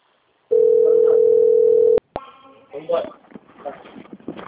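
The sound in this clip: A telephone dial tone sounds as a call is placed, a steady loud hum lasting about a second and a half, cut off by two clicks, followed by voices on the line.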